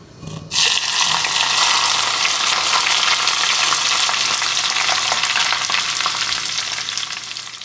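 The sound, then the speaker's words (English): Loud sizzling of hot oil poured onto chili to make chili oil for hot pot, bursting in abruptly and holding as a steady, crackling hiss that eases slightly near the end. “The sound of making chili oil is also very relaxing. After you put hot oil on the chili, you get this sound.”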